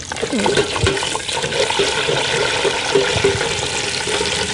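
Edible bugs deep frying in hot oil, seasoned with a tiny pinch of salt, give a steady, dense sizzle and bubbling hiss that holds at an even level throughout.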